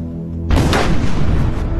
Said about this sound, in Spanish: Lanzó la primera bomba que alcanzó al tanque que iba a la cabeza.